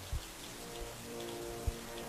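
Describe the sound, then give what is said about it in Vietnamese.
Heavy rain falls on a house with an unfinished tile roof, and water drips in through the gaps. A faint, steady hiss runs throughout, broken by a few soft, low thuds. “Hôm nay mưa to, nước từ bên ngoài theo những khe rột cứ nhỏ xuống tí tách.”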